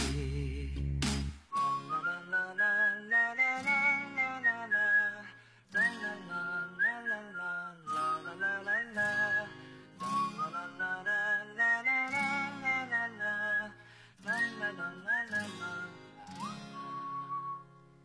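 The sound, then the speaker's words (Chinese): Whistled melody carrying a light, bouncy pop song: bright, repeated phrases over steady backing instruments, broken by short pauses, with no talk. “好像跟着口哨的声音一起轻快起来了”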